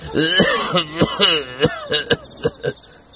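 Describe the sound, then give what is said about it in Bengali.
Coughing from a person sitting hunched on a raised porch in a narrow slum lane at night: a string of rough, voiced coughs and throat-clearing bursts, loud and irregular, with no other sound. “কয়েক পা পিছনে এগোতে কাশির শব্দ কানে এল।”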